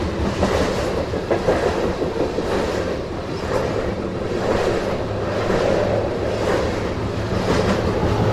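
A train rolling along railway tracks at around 40 to 45 miles an hour, a loud, continuous rumbling roar with a rhythmic clickety-clack from the wheels, steady throughout with no voices.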